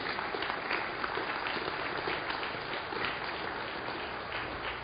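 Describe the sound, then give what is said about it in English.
An audience applauds at a live morning presentation, welcoming helpers to the stage. The clapping is dense and steady, holding at an even loudness throughout with no break. “Let's give them a round of applause”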